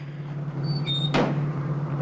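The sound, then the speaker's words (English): A car door is shut once by an attendant, a single sharp thud cutting through a steady low hum, with a couple of faint high tones just before it. “She goes back to the car and gets in. The attendant closes the door for her.”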